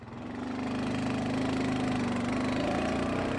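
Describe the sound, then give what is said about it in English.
Steady engine of a four-wheeler ATV running on a farm beside a field and grain bins. It makes a continuous mid-pitched rumble with a faint knocking pulse, swelling in at the start and then holding level, with no talk. “unloads two four-wheelers. That's how we'll get around the farm.”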